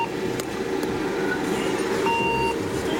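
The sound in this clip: A small eight-seat community minibus arriving at a bus stop, its engine giving a steady low rumble throughout, with a brief electronic beep near the end.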